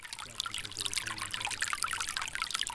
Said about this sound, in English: And there's water running over the road.